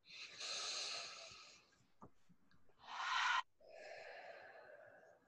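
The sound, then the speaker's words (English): Deep breaths during a calming tapping exercise: a long airy inhale, a brief click, a sharper rushing breath, then a long steady exhale, all fairly soft with no talk. “One more deep breath.”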